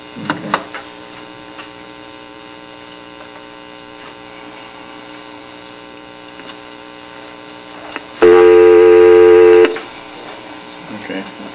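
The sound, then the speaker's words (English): A steady telephone dial tone sounds on a phone line before an operator-placed collect call. It comes in loud and even for about a second and a half, over a constant low electrical hum. “Okay, we have a dial tone.”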